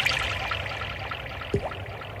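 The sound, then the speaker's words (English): Water pours in a short, moderately loud stream over a steady low hum at the opening of a techno dance event, with a brief upward-sweeping tone near the end. “Water.”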